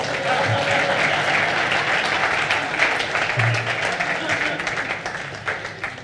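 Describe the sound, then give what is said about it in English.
A church audience applauds during a service, a dense, steady wash of clapping that holds at an even level for about six seconds. “I think we can put our hands together for Jesus.”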